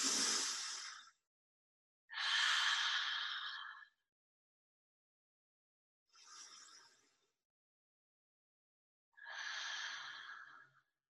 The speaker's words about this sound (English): And stand up nice and tall. Three breaths to integrate that amazing cosmic experience.